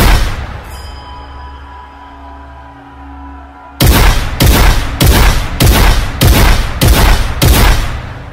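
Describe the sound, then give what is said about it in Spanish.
Gunfire shot indiscriminately at the windows of a mosque during an attack: a low steady hum for about four seconds, then a regular string of loud, heavy shots, about seven, spaced roughly evenly. “decidió disparar de forma indiscriminada a las ventanas”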